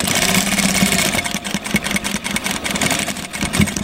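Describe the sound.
A sewing machine runs steadily in a sewing workshop, giving a continuous mechanical whirr and hum with small rhythmic fluctuations that carry on throughout without pause.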